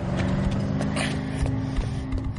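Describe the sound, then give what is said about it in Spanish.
Car engines rumble as vehicles pull away down an alley in a crime drama, a low, steady motor sound with faint scattered knocks and no voices. “Mike sale al callejón con una bolsa de tela y ve alejarse a los coches.”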